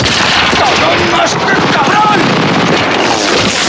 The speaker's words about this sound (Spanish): Horvath le lanza el casco, saca las pistolas. El sargento Horvath lo mata.